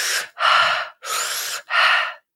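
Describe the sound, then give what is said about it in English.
Four hissing breaths drawn in through pursed lips, as if sipping through a straw, during a morning breathing exercise. Each is a sharp, airy rush lasting about a quarter to half a second, separated by brief silences. “I like to breathe sort of like I'm sipping through a straw.”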